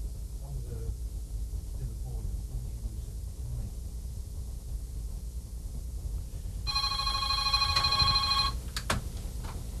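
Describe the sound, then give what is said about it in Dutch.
A telephone rings with a caller to a radio studio: a bright, steady electronic ring sounds once near the end after a stretch of low murmuring background. “We hebben een beller. Ja, nu al een beller.”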